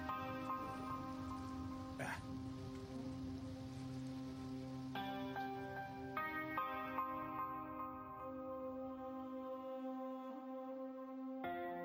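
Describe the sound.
Steady rain hisses throughout as a soft, even wash of noise beneath sustained musical tones, with no talk.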